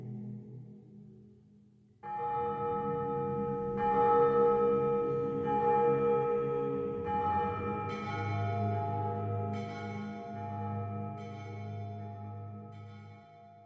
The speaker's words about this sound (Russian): Звучит молитвенное песнопение с колокольным перезвоном.